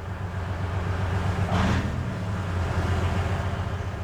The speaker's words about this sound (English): Soldiers from the Biletselkva Air Defense Regiment are driving their anti-aircraft missile system called OSA into cover. This giant Soviet armored vehicle on wheels is a lucrative target for Russian drones.